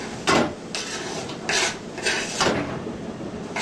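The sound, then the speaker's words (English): A small pear being chopped, heard as several crisp, short scraping cuts at an uneven pace against faint background noise. “A small pear, you chop it like that.”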